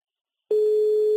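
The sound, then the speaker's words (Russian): After a number is dialed, a telephone call tone begins following half a second of silence: a single steady, mid-pitched electronic tone that holds at an even level until the end. “Все, я набрал этот номерочек и нажимаю вызов.”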